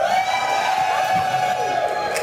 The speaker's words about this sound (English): At a rally in Edmonton last night, members of Alberta's NDP and the party's allies took turns telling a crowd of attendees why they should vote for Alberta to stay in Confederation.